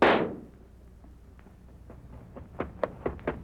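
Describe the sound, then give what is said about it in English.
A gunshot cracks out as a sharp, loud burst at the very start and decays within half a second, followed by a few faint scattered knocks and clicks in a quiet background. “Go ahead and pull that trigger.”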